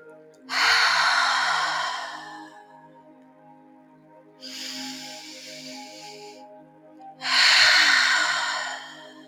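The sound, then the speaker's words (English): Slow, deep breaths during a guided meditation, drawn in through the nose and let out through the mouth: three long, airy breaths separated by pauses, over a faint, steady drone. “Inhale deeply through the nose and exhaling slowly through your mouth.”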